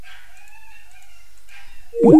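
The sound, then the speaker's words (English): Dogs bark outside: one loud, sharp bark cuts in at the very end after a quiet stretch of faint, thin high tones. “And the dogs are going crazy outside.”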